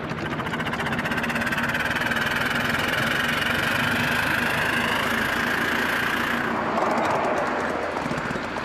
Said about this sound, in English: quite an acceleration for a locomotive